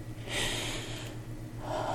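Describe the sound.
A man's sharp, breathy gasp as a tender testicle is gently held between thumb and finger, with a softer breath following near the end over a low, steady hum.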